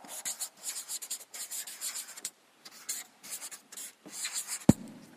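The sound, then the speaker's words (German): Scratchy strokes of a pen drawing a diagram by hand, coming in many short bursts of rubbing and scraping with brief pauses between, then one sharp tap near the end. No voices. “Ich versuche, den Inhalt dieses Kapitels in ein kleines Schema zu zeichnen.”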